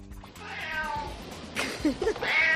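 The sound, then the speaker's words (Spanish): A house cat meows several times in drawn-out, tonal cries that rise and bend in pitch. The calls come clearly over a faint steady background, with no talk. “con un gatito, y claro, cuando sonaba la alarma, la apagaba el gato. O sea, que el gato le desconectaba.”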